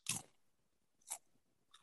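Crisp crunching of plain, unseasoned chips being bitten and chewed: two sharp, bright crunches about a second apart, then a third starting at the very end, with near silence between them.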